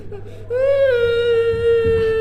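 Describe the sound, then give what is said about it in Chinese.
A child crying: one drawn-out, whimpering wail lasting about two seconds that rises slightly at the start, then holds a steady pitch. “好孩子别哭了”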